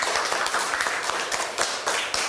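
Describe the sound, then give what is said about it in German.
Audience applause at a live German-language event: dense, continuous hand clapping with sharper individual claps popping out now and then. “Na, schon mal ein Applaus für euch.”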